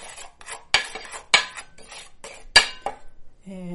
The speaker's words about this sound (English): stir that flour and salt and pepper around so things are evenly distributed.